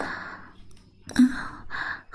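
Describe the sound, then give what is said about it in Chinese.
Heavy breathing close to someone's ear, a few breathy exhalations and inhalations separated by short pauses, soft and airy with no words. “连别离我这么近啊，呼吸都弄到我耳朵上了。”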